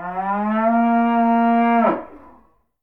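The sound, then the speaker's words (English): A cow gives one long, low moo that holds a steady pitch for nearly two seconds and then breaks off into a short, fading tail. “Cow.”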